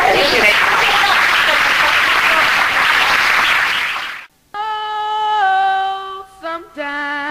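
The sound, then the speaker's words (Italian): Loud, dense applause from an audience for a guest fills the first four seconds, then cuts off. After a brief gap, music begins with sustained, melodic tones that shift in pitch. “forse gli possiamo fare anche un applauso.”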